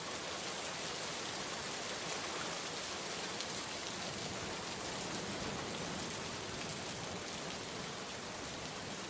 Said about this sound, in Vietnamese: Cơn mưa đầu mùa vừa trút xuống Kadambini